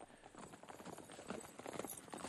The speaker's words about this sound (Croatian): mogu pustiti konja u kas.